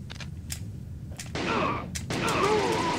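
Gunshots fired in a video game ring out as a few sharp, separate cracks over a steady bed of game noise, the later shots followed by louder, fuller ambience.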